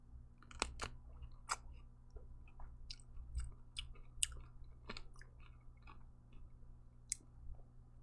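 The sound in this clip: Crisp crunching as someone chews a thick-skinned slicing cucumber, with a few sharp bites and wet chewing between them. The sound is quiet, with no talking.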